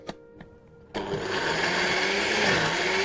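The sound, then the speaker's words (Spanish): After a couple of faint clicks, a blender switches on and runs with a loud, steady, high whir while blending a sauce with added olive oil. “Sí, ahora sí vamos a añadir un poco de aceite de oliva. Sí. Y a licuarlo todo.”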